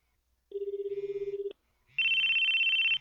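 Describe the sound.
A telephone call rings out unanswered: a low buzzing tone for about a second, a pause, then a higher, steady warbling tone, with no voices.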